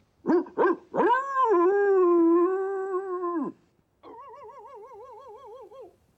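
Cartoon dogs barking and whining in the animated film 101 Dalmatians: two short sharp barks, then a long drawn-out whine that drops away, a brief pause, and a wavering, warbling howl.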